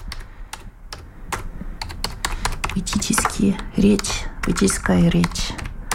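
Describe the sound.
Rapid, irregular clicking of keys on a computer keyboard as someone types in Russian, the tapping continuing while a voice speaks over part of it.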